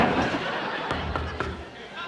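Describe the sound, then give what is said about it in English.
Three sharp bangs on a door land in quick succession, loud and percussive, over a continuous noisy background with voices talking. “Stop banging on my door.”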